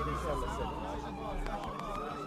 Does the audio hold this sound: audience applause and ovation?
no

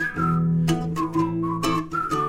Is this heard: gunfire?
no

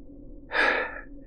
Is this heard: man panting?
yes

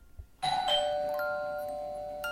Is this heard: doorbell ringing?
yes

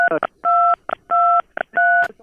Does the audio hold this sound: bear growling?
no

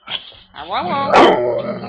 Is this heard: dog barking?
yes

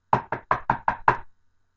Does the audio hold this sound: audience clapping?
no

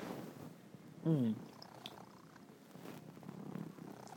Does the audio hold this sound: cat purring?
yes

